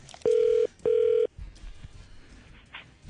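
Telephone ringing on a called line: two steady, even electronic bursts at a single pitch, separated by a short gap, followed by faint line noise.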